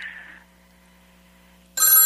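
A telephone rings with an incoming call to a football radio call-in show. A brief trilling ring fades, then a quiet pause with a low steady hum follows before a louder, bright ring bursts in at the end.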